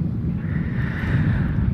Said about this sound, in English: As I was wading around the beach, you might hear the waves in the background. That's what that is. That's the waves crashing